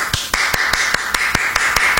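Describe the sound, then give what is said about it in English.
One person applauds alone, clapping in a steady, evenly spaced run of sharp claps over a constant background hum. “Well, I'm just going to keep applauding just me.”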